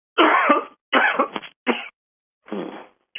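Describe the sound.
Someone with allergies coughs and clears their throat in a few harsh, breathy bursts separated by short silences.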